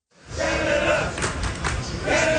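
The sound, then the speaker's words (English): Soccer fans chant in the streets of downtown Houston ahead of a World Cup round-of-16 match between Canada and Morocco. A loud, sustained mass of voices swells in quickly and stays strong throughout. “Those chants are filling the streets of downtown Houston”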